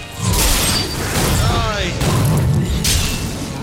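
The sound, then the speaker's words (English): A grotesque blob monster exploding in a horror video game and releasing a mass of worms: a loud, dense burst of rumbling, crunching noise that holds steady for a few seconds. “He explodes.”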